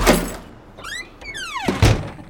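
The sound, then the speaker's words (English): A door sound effect: a solid thud, then a squealing creak in two drawn-out strokes, ending with a second heavy thump as the door shuts. “Same door. Love that door. Door's been in a lot of shows.”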